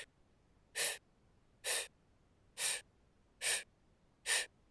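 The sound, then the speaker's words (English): Slow breaths drawn in through pursed lips, as if sipping through a straw: five short, airy hissing inhalations in an even rhythm, with silence between them. “so like doing that just now, I'm sipping in as if through a straw. That was like 10 breaths.”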